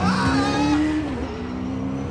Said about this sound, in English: He slammed on the gas, causing the driver to tumble out the back.